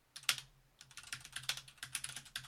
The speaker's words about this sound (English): Click with the gibberish. Nice. Clickety-clack.